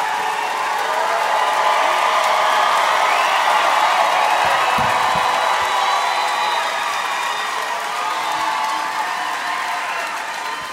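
A studio audience cheers and applauds as a guest co-host is welcomed onstage: a steady, loud wash of clapping and crowd noise with scattered whoops and shouts that holds throughout and eases slightly at the end.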